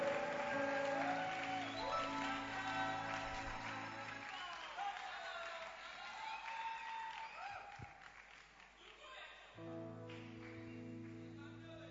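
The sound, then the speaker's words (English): Audience applause greets a singer coming on stage at a worship service: faint, sustained clapping and crowd noise run the whole time, mixed with steady musical tones that drop out midway and return near the end. “Put your hands together as she comes on stage.”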